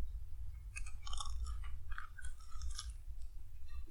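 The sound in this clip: Someone chews a very hard homemade sweet made with sugar, producing many faint, irregular crunches in quick succession.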